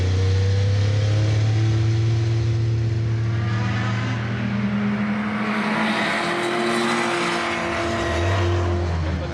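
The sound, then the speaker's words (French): A 962C race car with a 2.8-litre six-cylinder biturbo engine runs on a circuit. The engine drone is loud and continuous, its tone shifting as revs change, with a lower pitch near the end. “faut savoir que cette 962C est équipée d'un moteur 6 cylindres, 2 litres 8, biturbo. Alors que la 962, celle juste avant, eh ben, il n'y avait qu'un seul turbo.”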